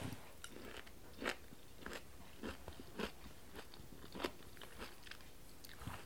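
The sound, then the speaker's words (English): Faint crunchy bites and chewing of butter-braised radishes with fresh dill, with a few sharp crunches spaced through steady quiet mouth sounds and no talking. “our butter braised radishes with fresh dill. And let's give it a taste.”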